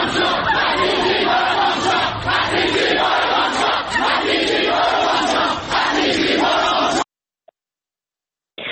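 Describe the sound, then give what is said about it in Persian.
University students at Amirkabir University chant slogans at a protest, a loud, dense crowd of voices roaring in rhythmic unison that cuts off abruptly after about seven seconds into near silence. “صدای دانشجویان دانشگاه کبیرم میتونیم بشنویم.”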